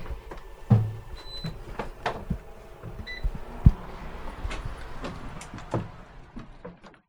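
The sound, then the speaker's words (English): A dehumidifier in a seed storage room is switched back on: a few sharp clicks and a short high electronic beep stand out over low handling noise. “I'm gonna turn this dehumidifiers back on, keep our seeds dry.”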